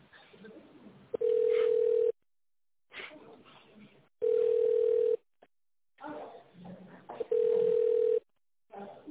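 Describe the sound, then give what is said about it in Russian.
A telephone ringback tone plays while a call is transferred on a sanatorium's line: three steady, mid-pitched tones about a second long at regular intervals, with muffled background sound in the gaps. “Так, это на Инну Николаевну, я вас переключу.”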